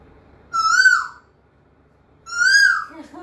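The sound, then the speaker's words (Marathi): A voice imitates the call of an Asian koel with two loud, clear whistle-like notes, each holding a high pitch, separated by a short silence. “मी कोकिळचा आवाज करते मग मी कुत्राचा आवाज so कोकिळचा”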